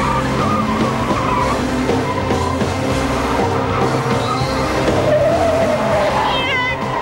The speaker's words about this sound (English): They come out of the smoke and Thorby speeds toward a chain link fence.